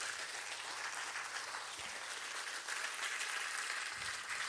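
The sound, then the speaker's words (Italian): Audience applause at a live storytelling event: dense, continuous clapping that holds a steady, fairly loud level throughout, with no talk over it. “Un applauso, scusate, non a me.”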